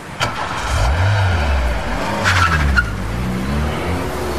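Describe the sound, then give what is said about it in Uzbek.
A car speeds along with a loud, revving engine whose pitch swells and dips, then its tyres skid and squeal in a sharp, high burst partway through before the engine roar carries on. “Avtomobilingiz tezligidan zavqlanasiz.”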